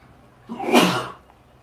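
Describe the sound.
A single sneeze during an Islamic quiz programme, loud, sharp and brief, bursting out of a quiet background and fading within about half a second.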